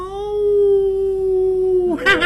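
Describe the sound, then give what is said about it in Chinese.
A long wolf howl: a steady mid-pitched tone held for about two seconds that drifts slightly downward at the end, then breaks into a short, rougher burst. “不是夜猫叫，就是野狼嚎啊！”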